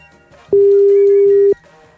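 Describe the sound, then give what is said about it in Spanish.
A telephone ringback tone while a collect call is dialed: a single steady mid-pitched tone lasting about one second, loud over a faint background. “A ver, está marcando.”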